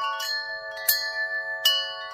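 A wind chime rings with sustained bright metallic tones, struck three distinct times while the earlier notes keep sounding softly beneath each new strike.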